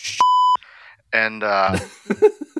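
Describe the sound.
A single steady mid-pitched beep from two buttons pressed at once, short and clear, followed by a person talking.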